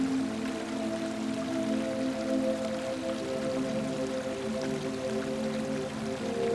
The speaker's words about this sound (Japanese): 川に近づいていきましょう。